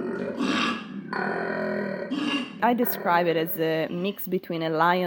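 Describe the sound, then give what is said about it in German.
A male koala bellows: deep, rough, roar-like grunting that shifts into a series of strained, higher-pitched squealing calls, loud and continuous throughout. “Erst klingt es so, als hätte man einen Löwen hinter sich. Und dann entwickelt sich das Ganze zu einem Quieken wie von einem Schwein. Dieser höchst eigenwillige Ton spielt bei der Kommunikation von Koalas eine große Rolle.”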